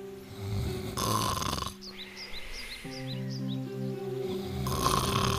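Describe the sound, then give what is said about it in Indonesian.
Snoring of a wolf sleeping under a tree: two long, rasping snores over soft background music, with light chirping bird sounds in the quieter stretch between them. “Serigala berbaring di bawah pohon dan mulai tidur. Dan mendengkur.”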